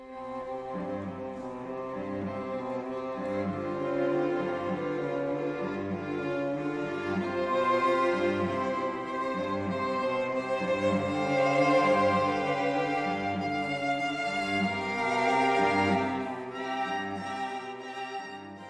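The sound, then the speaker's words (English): String quartet of youth orchestra players performing a dissonant passage from a Mozart work, with sustained, layered bowed chords that swell and ease at a moderate volume, unaccompanied by any talk. “Their version, the version we're going to hear now, played by the National Youth Orchestra of Canada Quartet, thanks to them, sounds like this.”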